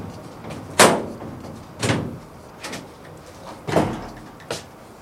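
A bolted door aboard a ship is worked open with five sharp wooden and metal clunks, spaced roughly a second apart, the first the loudest and the rest somewhat softer.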